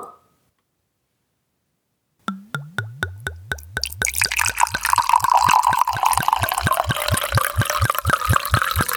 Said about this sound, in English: So I can go open my bottle. Okay. I will also open bottle.